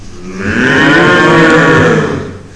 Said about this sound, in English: The deep moo of a big black cow.